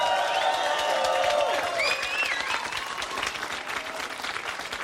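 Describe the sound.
A crowd at an outdoor summer radio party applauds and cheers, with whistles and whoops over the clapping at first, then the applause thins out and grows quieter.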